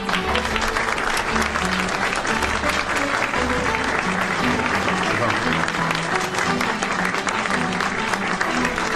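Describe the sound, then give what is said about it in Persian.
Audience applause at a ceremony honouring a woman being called to the stage: dense, continuous clapping at a steady level that carries through the full nine seconds. “تشریف بیاری لطفا، دست بزنیم.”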